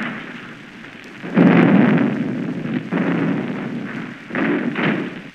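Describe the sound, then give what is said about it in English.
War explosion sound effects, a few heavy, rumbling low booms that swell and overlap in loud bursts, with no voices. “I don't think it's safe out there with all that shooting. Oh, don't be silly. There's nothing going on there but a war.”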